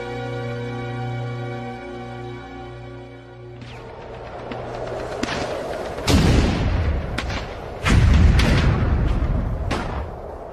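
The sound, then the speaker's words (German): Russian artillery shells burst near a cellar vault: a steady droning tone gives way to rumbling, crackling impacts, then two heavy, deep blasts stand out, each trailing off into a low roar. “Das Kellergewölbe schwankte unter dem Detonationsdruck berstender russischer Granaten.”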